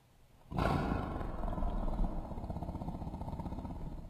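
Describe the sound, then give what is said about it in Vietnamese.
A tiger roars, a loud, rough, growling roar that bursts in suddenly and rumbles on for several seconds with a pulsing, throaty texture. “Con hổ thấy vậy gầm lên một tiếng”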